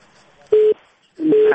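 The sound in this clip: Busy tone after a disconnected phone call: two steady, identical beeps at a fixed pitch, separated by a short gap, over a faint hiss.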